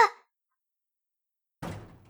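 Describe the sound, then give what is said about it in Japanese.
A door is shut with a brief sharp knock right at the start, then near-total silence, then a heavier, duller thud that rumbles and fades out. “なんで、なんで閉めるの？お願い、入れてほしいの。お願い、入れて。”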